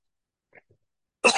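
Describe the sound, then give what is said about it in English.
A single short cough from someone giving a sermon, sharp and fairly loud after near silence, with a couple of faint small sounds just before. “I'm starting to cough, so I must be through.”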